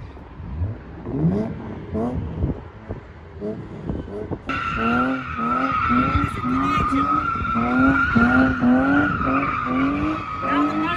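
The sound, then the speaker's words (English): Car tires squeal as a manual car launches from a start. Engine revs climb in repeated sweeps, then a steady, piercing squeal holds through the second half. Faint voices may be present. “You heard the sound of the tires on the start?”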